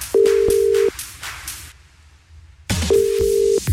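A telephone number is dialed, with two long, steady electronic tones marked by sharp clicks and separated by a quieter gap of low hiss.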